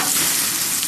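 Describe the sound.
Food sizzling on a barbecue grill: a loud, dense, steady hiss with fine crackle lasting under a second, with no voices.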